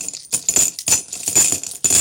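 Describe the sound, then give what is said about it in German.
Coins clink as they drop into a piggy bank used as a penalty jar: several sharp, bright metallic bursts in quick, uneven succession, fairly loud and with no talk over them. “Das ist auch rein, die Münzen.”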